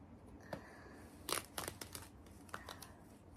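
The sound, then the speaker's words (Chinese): Black nylon stockings being torn open by someone seated on a sofa, heard as faint crinkling with a few sharp rips, the strongest burst near the middle. “接下来，我要先把丝袜撕开。”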